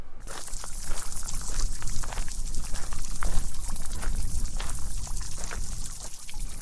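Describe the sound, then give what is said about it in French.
Water from a fountain jet in a formal French-style château garden surrounded by forest rushes and splashes in a steady, fairly loud hiss that continues throughout with no voices. “Le jet d'eau du jardin du château de la Traîne.”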